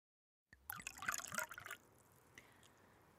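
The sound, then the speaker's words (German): Liquid pouring into a glass as a large measure of Averna herbal liqueur is served: a short, faint burst of gurgling, splashing trickle lasting about a second, then near silence. “Ich gieße mir einen großen Averne ein.”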